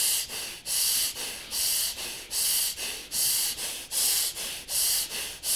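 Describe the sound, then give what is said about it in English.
Noisy, playful breathing through both nostrils with the chest expanding and contracting: many quick, rhythmic, hissing breaths in and out, evenly paced and alone. “Yes, noisy breath. Let it happen.”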